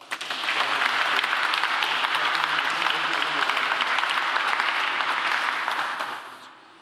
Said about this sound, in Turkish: Alkışlarınızla.